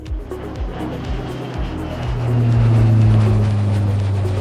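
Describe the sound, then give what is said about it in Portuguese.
A small jet takes off: a heavy engine roar with low, regular pulsing that swells in loudness after about two seconds, as steady droning tones settle in and hold strong. “aperte os cintos, pois esse jatinho vai decolar!”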